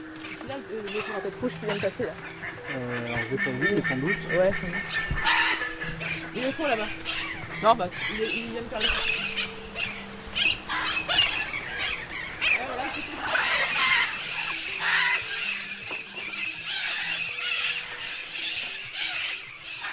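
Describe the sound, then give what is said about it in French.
Bird calls at a zoo as birds fly around: repeated honking and cawing cries throughout, some harsh and some squealing, under a person talking. “les oiseaux sont à voler autour de nous”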